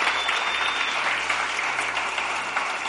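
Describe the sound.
Audience applause at a church gathering, a thick, sustained wash of many people clapping that stays loud and even from start to finish.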